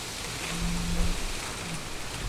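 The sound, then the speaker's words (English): Rain falling as a storm arrives, heard as a steady, dense hiss of drops with no distinct individual impacts, continuous and even throughout. “I sit here now, you might be able to hear it. The rain is coming.”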